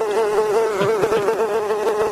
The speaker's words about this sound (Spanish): si se asoman a la ventana, aún ven muchas moscas.